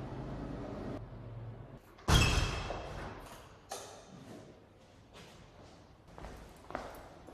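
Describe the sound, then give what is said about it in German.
Window shut in a quiet room to keep out street noise: one sharp thud, then a few faint knocks and rustles fading into a low background. “Ich habe jetzt erstmal das Fenster zugemacht, vielleicht ist das doch ein bisschen besser.”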